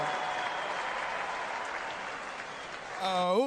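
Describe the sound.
Audience applause for an orchestra at a kafana celebration, a steady, dense clapping that holds throughout, with a voice rising above it near the end.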